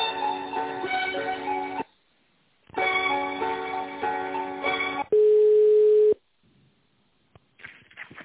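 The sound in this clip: Telephone line tones play while an office call is transferred to the finance department: two stretches of thin, melodic beeping, then a single steady beep, a short silence, and faint noise at the end.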